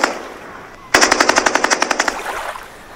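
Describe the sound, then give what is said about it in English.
Uzi submachine gun fired into the air from a yacht: a sudden, rapid burst of about a dozen sharp, evenly spaced cracks lasting roughly a second, breaking out of near-silence and ending in a short fading tail. “Okay, here's my gun. Oh, whoa! It's an Uzi!”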